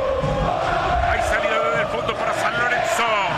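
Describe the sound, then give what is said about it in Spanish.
San Lorenzo fans chant and cheer at a football match against Boca, tied 0-0: a dense, continuous crowd roar with sung chanting running loud and steady throughout. “Alienta el público de San Lorenzo.”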